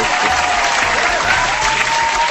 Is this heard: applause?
yes